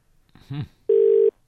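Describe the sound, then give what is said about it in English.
Telephone tones for an incoming caller: a brief warbling burst, then a long steady beep and the start of a second one. “Oh, I think we've got a caller.”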